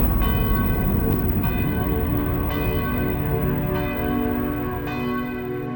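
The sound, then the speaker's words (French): Village church bells ringing on a late December morning in Uruffe, France: a dense, continuous peal of resonant, overlapping tones, with fresh strikes arriving every second or so under the sustained hum. “Le 5 décembre 1956, fin de matinée, les cloches du Ruf sonnent, le temps s'arrête de nouveau.”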